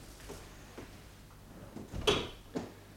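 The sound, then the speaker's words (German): A door being shut lands as a solid thump near the end, followed shortly by a smaller knock, with faint rustling and light bumps before it. “So, die Tür ist zu.”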